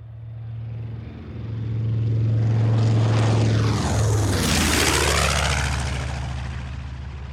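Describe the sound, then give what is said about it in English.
A radial-engined propeller airplane flies overhead, its deep baritone drone swelling to a loud peak midway, dropping in pitch as it passes, then slowly fading. “That noise. Please join me in lifting our eyes heavenward. From whence comes that divine sound? Is it not the baritone siren song of a radial-engined angel?”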